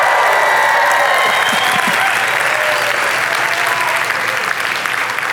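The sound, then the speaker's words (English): Studio audience applause, a loud, dense and unbroken wash of many hands clapping that holds steady throughout. “I'm joined today by my studio audience that broke out of curfew and quarantine, saying they don't have a fever. Would you all give yourselves a hand for being with me?”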